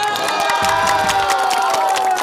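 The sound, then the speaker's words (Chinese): An audience cheers, shouts and claps for a young competitor after a military-themed load-carrying challenge. Lively whoops and children's shouts ride over scattered applause at a loud, even level. “我们现在二连大，给我们的这位小兵鼓鼓掌好不好？”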